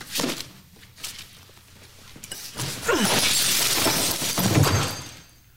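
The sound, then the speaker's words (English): A glass flask is thrown and shatters on the ground. A loud, sustained crash of breaking glass follows, with a long spray of tinkling fragments that peaks near the end, after some quieter shuffling sounds. “Jesse reacts to Walt insulting Jane by trying to throw the flask and hit Walt. Walt ducks and he misses and it shatters all over the ground.”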